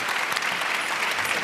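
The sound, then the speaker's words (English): An audience applauds to thank a panel after a lively presentation, a dense, steady wash of clapping hands that stays even throughout the short stretch. “why doesn't everyone put their hands together and let's thank the panel for this lively presentation.”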